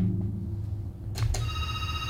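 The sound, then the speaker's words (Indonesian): A telephone rings with an incoming call: a low hum, then a couple of short clicks, followed by a steady electronic ringing tone that holds to the end. “Ada telepon lagi kan? Iya, ada telepon lagi”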